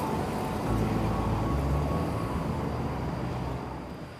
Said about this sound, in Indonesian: ini mobil udah datang.